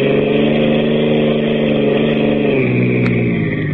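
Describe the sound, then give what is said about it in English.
A car engine, tuned up about a week earlier, runs steadily and loudly with an even, humming drone that dips slightly in pitch near the end. A brief click sounds shortly before it stops. “Sounds pretty good. No, like I told you, the motor's okay. I just had it all tuned up about a week ago.”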